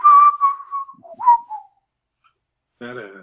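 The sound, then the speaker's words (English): A person whistles a short signal phrase: a few wavering, sliding notes in quick succession, loud and clear, then a pause before a brief burst of voice. “just remember to whistle that nonsense little phrase”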